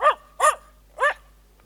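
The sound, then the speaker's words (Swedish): A family dog gives three loud, clear barks, each short and sharp with brief pauses between them, and nothing else is heard. “Det är familjens hund.”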